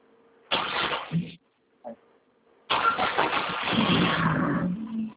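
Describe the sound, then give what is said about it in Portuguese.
A car engine revs as the driver shifts gear and accelerates: a short rev burst, then a quick blip, then a longer sustained rev that roars on for a couple of seconds before cutting off. “Ele tem que mudar de marcha, tem que acelerar.”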